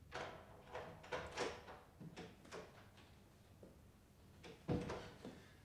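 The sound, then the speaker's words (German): Clicks and clunks as a key unlocks an apartment door and the door swings open: a faint series of sharp knocks, rattles and latch snaps, spread unevenly with quiet gaps between them. “Sie hatte mir den Schlüssel gegeben, und so öffnete ich die Tür.”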